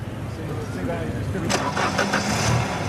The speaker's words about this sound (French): Réglé au quart de poil, ce moteur devrait permettre à la Cosworth d'atteindre les 225 km/h. S'il veut bien démarrer,